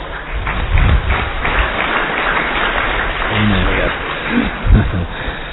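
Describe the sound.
An audience claps during a religious storytelling talk, giving steady, dense applause with a few heavier thumps and some faint voices mixed in.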